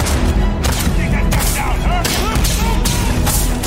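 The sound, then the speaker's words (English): Shotgun fire in the sci-fi video game Starfield: several loud, booming blasts at uneven intervals over a constant din of game action. “the shooting looks solid. Shotgunning. Space P90, yeah.”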